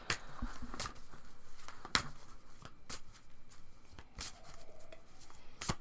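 Oracle cards shuffled by hand, giving a quiet, continuous run of quick riffling flicks and soft slaps with no talk.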